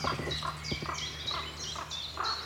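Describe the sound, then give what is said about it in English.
Ravens call in the Brecon Beacons in a quick run of many short, hoarse, throaty calls at an even pace, moderately loud over a quiet outdoor background. “Oh, there's a fourth. It's right beside me. Oh, taking off now. Five ravens here.”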